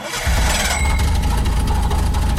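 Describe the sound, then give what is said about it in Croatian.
A car engine starting: after a brief moment, a loud, rough mechanical roar catches and runs on steadily and evenly, with no voices. “Pali se neko auto.”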